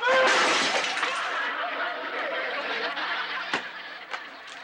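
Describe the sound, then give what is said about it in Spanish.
A flower vase shatters with a loud crash of breaking pieces that quickly fades into scattered clatter. Two sharper cracks ring out near the end. “Ah, lo que tampoco se rompió fue este florero, porque como no estaba en el costal de... ¡Espera!”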